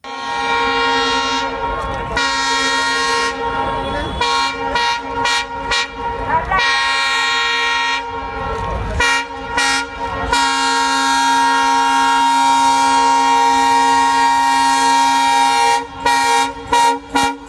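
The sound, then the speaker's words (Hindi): A train horn sounds again and again as a train moves slowly along the track in Amritsar, on the line where an accident happened. The loud, sustained blasts come in a long series with brief gaps between them. “Amritsar हादसे के बाद पहली बार आज उसी पटरी से जब एक ट्रेन गुजरी तो उसकी गति बहुत धीमी थी और ड्राइवर ने जाने कितनी बार, कई बार हॉर्न बजाया”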